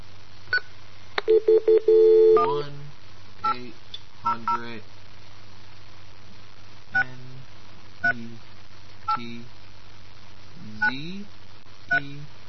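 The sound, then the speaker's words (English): Touch tones of a telephone number being dialed: a quick cluster of beeping key tones over a low steady hum, followed by scattered short blips at intervals. “All these numbers that we're dialing”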